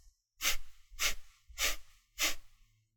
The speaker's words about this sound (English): And with your hand on your diaphragm, you should be able to feel that contraction as you expel air through your nose.